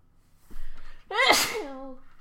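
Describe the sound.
A single loud, forceful sneeze bursts out after a short breathy intake, then trails off quickly.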